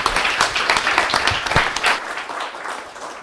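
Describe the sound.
Audience applause welcomes a speaker to the stage at a talk, with thick, sustained clapping from many hands. Individual strikes stand out now and then, and the volume eases slightly toward the end.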